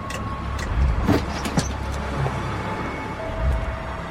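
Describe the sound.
Traffic passing on a busy road, a continuous low rumble of cars and a heavier vehicle, swelling as individual vehicles go by and settling back to a steady hum.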